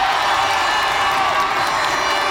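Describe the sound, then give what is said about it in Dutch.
A crowd cheers and applauds for Cape Verde's national football team during the World Cup. It is a loud, continuous roar of voices and clapping that holds steady for about two seconds, with no talk over it. “Een applaus voor ze!”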